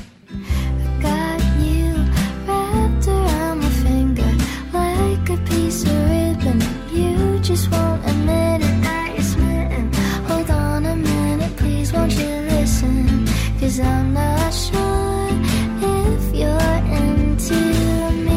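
A song, the closing track of an album, plays as steady melodic music. Sustained tones glide over a full low end at an even loudness throughout, with no talk over it.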